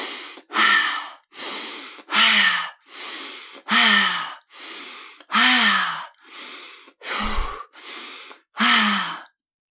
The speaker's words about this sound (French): Vous allez inspirer et expirer de manière forcée.